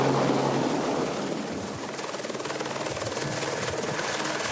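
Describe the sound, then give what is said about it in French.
A helicopter hovers to haul out an engine hidden in the Amazon forest. Its loud, steady rotor and engine roar fills the whole clip, dipping slightly in level after the first second and then holding even. “Pour le sortir, l'hélicoptère va le tirer à l'extérieur.”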